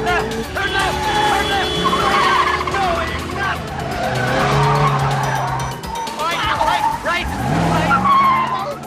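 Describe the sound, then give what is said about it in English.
Tires squeal and skid again and again as a police squad car weaves left and right in a pursuit, with car engine noise and people talking throughout. “The squad car weaves left and right with Eve in hot pursuit”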